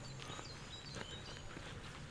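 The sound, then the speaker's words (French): Faint footsteps walk up a winding path through a front garden on the way to a house, a few soft, uneven steps under a quiet background hiss. “Je vais entrer dans sa propriété. Et par l'allée qui serpente dans l'avant-jardin.”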